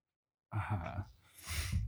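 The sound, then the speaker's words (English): A deep breath drawn by a person, beginning abruptly with a short voiced, breathy sound and ending in a louder rush of air, about a second and a half long. “Well, stop taking a deep breath.”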